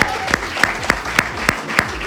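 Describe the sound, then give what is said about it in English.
A round of applause with sharp, evenly spaced claps at a steady quick pace over a bed of crowd noise. “We need to give a massive round of applause.”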